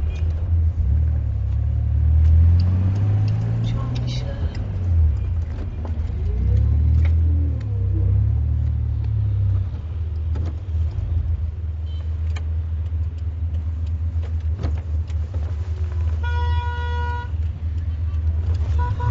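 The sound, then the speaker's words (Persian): A jeep drives at night with a steady, low engine rumble throughout, and a short horn toot sounds near the end. “شب پشت فرمون جیب.”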